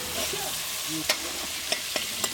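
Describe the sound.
A cooked Jamaican dish is stirred in a pan before serving, giving a soft continuous sizzle and scraping broken by a few sharp knocks of the utensil against the pan.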